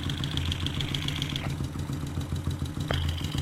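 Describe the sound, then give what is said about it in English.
Engine running, recorded at the front bottom of the engine: a steady low idle rumble with light mechanical clatter and a thin high whine that cuts out midway and returns near the end. “see just what different parts of the engine sound like. We're at the very front right now, at the bottom of the engine,”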